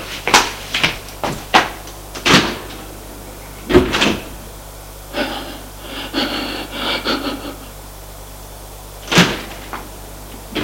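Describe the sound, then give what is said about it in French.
A door is closed and locked with bolts and security chains: a run of sharp clunks and knocks, a stretch of lighter rattling clicks, then one final solid clunk. “Et ferme la porte en mettant les verrous et les chaînes de sécurité.”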